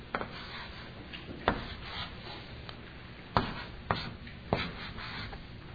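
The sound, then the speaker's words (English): Someone writes the numbers one through ten on a board: faint scratchy strokes go on throughout, broken by several sharper taps as each mark is made, with no talk. “So now, write numbers 1 through 10 on the board.”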